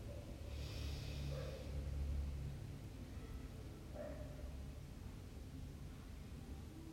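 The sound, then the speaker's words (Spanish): A slow, deep inhale through the nose during a guided relaxation breathing exercise, a soft airy rush lasting about two seconds that fades into quieter breathy noise. “Inhalen profundo por nariz.”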